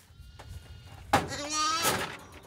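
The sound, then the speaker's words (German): Newborn lamb bleating, a short, wavering, high-pitched cry with a quieter call at the end, fairly soft overall against faint background noise. “Hier haben wir ein frisch geborenes Lamm da vorne.”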